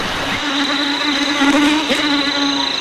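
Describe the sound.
Mosquitoes buzz in the jungle of New Guinea, a continuous, loud, high-pitched whine with a droning undertone that wavers slightly but never stops.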